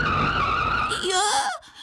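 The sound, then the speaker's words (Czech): Tyre squeal from a car skidding and nearly running someone over: a sustained high screech for about a second, then a short wavering vocal cry before it cuts off. “Málem mě přejelo auto.”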